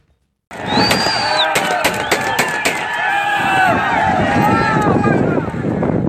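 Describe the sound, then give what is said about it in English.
Celebratory gunfire by Taliban fighters after capturing a border crossing with Iran: a rapid series of sharp, loud shots in the first seconds, layered over continuous crowd noise and shouting voices. “That's the sound of Taliban fighters' celebratory gunfire after capturing yet another border crossing, this time with Iran.”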